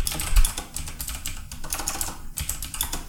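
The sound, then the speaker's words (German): Computer keyboard typing: a rapid, busy run of many crisp key clicks with a couple of heavier thumps, fairly loud and unbroken, with no talk. “Nein, das ist meine Tastatur und mein Pegel stellt sich doch dauernd von alleine hoch. Und dann klingt die Tastatur, als wäre es hier ein Angriff,”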